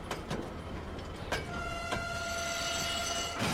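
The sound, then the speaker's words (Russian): An electric commuter train starting to move: a faint low rumble with a few sharp clicks, then a steady electric whine that emerges partway through and holds to the end. “Двери электрички закрылись, машинист поворачивает рычаг. Состав трогается.”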